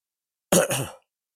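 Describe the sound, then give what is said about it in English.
One short, rough cough breaks into two quick bursts, then silence follows. Nothing else sounds around it. “I have to take some breath here because I have a cough.”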